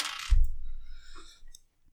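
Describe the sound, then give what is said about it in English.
Dice roll across a table during a tabletop role-playing game: a sharp clatter opens, then a few lighter rattling taps as the dice settle, brief and fairly loud. “Can I have everybody make me a die roll? Change in dice.”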